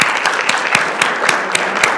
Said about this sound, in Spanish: Muy bien, dense un aplauso.